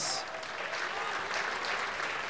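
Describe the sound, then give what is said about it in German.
An audience in a festival tent gives a dense, even round of applause. The clapping is sustained, with no distinct rhythm, and is heard alone at moderate loudness throughout. “Dein Applaus.”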